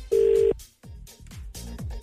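A telephone ringing tone sounds as one steady, loud, mid-pitched burst, followed by a run of shorter, softer, broken pulses.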